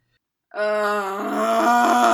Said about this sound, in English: Sorry, I'm groaning in advance